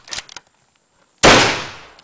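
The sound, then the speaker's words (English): A rifle shot fired at a target in an audio drama lands as one loud, sharp crack with a long, fading tail, preceded by a few faint clicks. “Fire off another round, York.”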